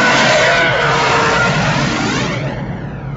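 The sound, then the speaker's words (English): A TIE fighter sound effect, built from an elephant call mixed with a car's tyres kicking up water on a very wet highway: a loud, continuous rushing roar that thins slightly near the end. “It's a sound of an elephant mixed with the noise that a car makes going by on a very wet highway, where you don't really hear the engine of the car, you hear the sound of the tires kicking up the water”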